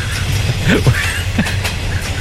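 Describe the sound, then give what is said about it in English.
A train travelling from Galway to Dublin, heard from on board as a continuous low rumble of wheels on rails. A few brief squeaks and clatters rise above the steady noise. “You're on the Galway to Dublin train, yeah?”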